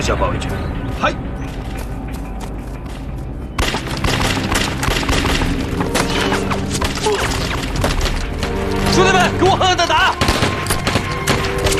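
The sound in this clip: Machine gun fire in a battle: dense, rapid bursts of loud cracking shots that run almost continuously and overlap with other gunfire and impacts, with voices mixed in.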